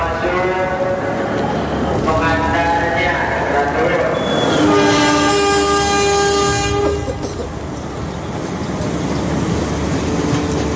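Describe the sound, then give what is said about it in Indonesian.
A passenger train rolls along with a steady rumble as its horn blows a loud, sustained chord midway through before fading back into the continuous running noise. “Tak lama kemudian, kami pun berangkat dengan kereta api.”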